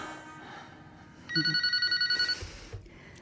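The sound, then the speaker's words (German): A telephone bell rings in one short, rapid, trilling burst of about a second, loud and metallic against an otherwise quiet background. “Mir blieb fast das Herz stehen, als auf einmal das Telefon anschlug.”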